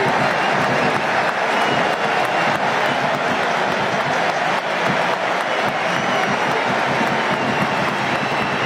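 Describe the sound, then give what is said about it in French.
Stadium crowd giving Ousmane Dembélé an ovation as he is substituted off for France: a dense, loud, unbroken roar of cheering and applause that holds at the same level throughout. “Et je crois que c'est Ousmane Dembélé, ouais. On va écouter l'ovation. Allez, Ousmane Dembélé. Allez, écoutez ça.”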